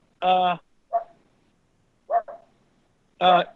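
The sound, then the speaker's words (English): A dog barks in the background, giving a few harmonic barks of uneven loudness, with the stronger ones at the start and end and softer yips between them. “That's the dog. The dog's in the background.”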